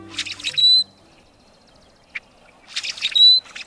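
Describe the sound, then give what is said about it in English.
Song of a rusty blackbird, a creaky, hinge-like call heard as two gurgling phrases, each ending in a thin, high squeaky note, with a brief click between them. “While it might sound like a door hinge that needs some grease, this is the song of the rusty blackbird.”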